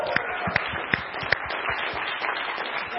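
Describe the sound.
A church audience applauds in welcome. A few sharp, separate claps lead into a dense, even patter of clapping that carries on to the end.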